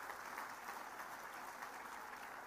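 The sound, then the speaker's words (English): An audience applauds the top five nominees at a local radio awards ceremony with faint, steady clapping that continues evenly throughout, with no voices over it. “Round of applause for our top five.”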